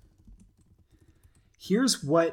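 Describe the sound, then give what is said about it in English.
Computer keyboard and mouse clicks while someone works through a data model, a light patter of quick taps that gives way to a louder, denser stretch near the end. “you can hear me clicking away again”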